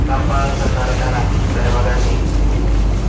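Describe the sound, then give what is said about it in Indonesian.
Deep, steady engine rumble of a ferry as it departs in the morning for an island, a loud continuous drone that fills the whole clip without a break. “Tepat pukul 8:15 waktu Indonesia Tengah, kapal pun mulai berlayar menuju Pulau Sabutung. Deru mesin kapal menghiasi perjalanan pagi itu”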